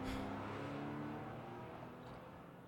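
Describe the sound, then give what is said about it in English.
A car driving in a video game: a steady, revving engine whir with a clear humming tone, holding level at first and then slowly fading, faint overall and with no talk. “All right, let's go. Getting out of here. Driving back to Morris.”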